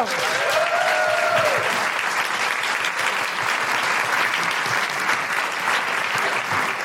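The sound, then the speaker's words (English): An audience applauds a performer, with dense, steady clapping throughout and a couple of high woohoo cries rising above it at the start. “Put your hands together and make incredible woohooing noises for the wonderful Ali McGregor!”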